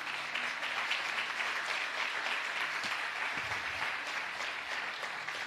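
An audience claps during a Sunday church service, producing a steady, dense wash of applause that runs evenly throughout at a fairly soft level.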